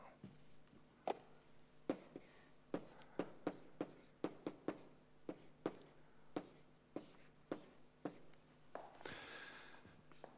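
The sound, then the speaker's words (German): Handwriting during a lecture on computing machines, heard as many short, sharp scratching strokes in an uneven rhythm. The strokes are quiet, and a slightly longer scraping stroke comes near the end. “Ich schreibe das mal hier ganz ein bisschen ordentlicher.”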